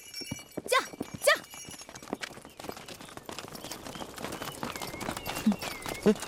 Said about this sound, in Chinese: 把马牵过去，把路让开，快点， 跟上。